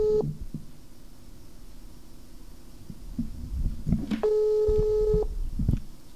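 Telephone line tones while calling a number: a short tone at the start, then a longer steady tone after a gap, with low thumps and faint rumble underneath.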